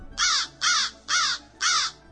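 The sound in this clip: A crow sitting in a fir tree caws four times in an even rhythm. Each caw is loud, harsh and rasping, with short gaps between them.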